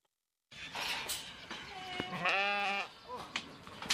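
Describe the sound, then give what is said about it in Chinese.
Sheep bleating in a pen of well-fattened livestock on a village farm in Dengkou County, Inner Mongolia. After a brief silence, a few wavering bleats sound over rustling background noise, one longer and louder than the rest. “走进磴口县卜龙闹镇夹道村，村民庄明亮家的羊圈舍里羊群个个膘肥体壮”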